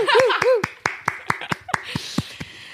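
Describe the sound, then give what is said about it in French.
A single person claps into a microphone, a steady series of sharp, evenly spaced claps, the first few overlapped by a brief laugh or vocal sound. “J'essaie de faire un applaudissement dans un micro, ouh, c'est ouh, nul.”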